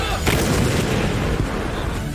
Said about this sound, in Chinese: 随着指挥员一声口令，122毫米车载榴弹炮率先出击，数门火炮依次开火，一发发炮弹破膛而出